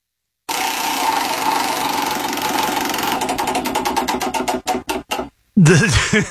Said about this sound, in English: Let's spin the wheel, see what it lands on.